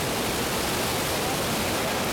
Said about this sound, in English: But this is the Jordan River. This is nowhere near what this verse talks about when it's flooding, but can we take a look at how slow this river is?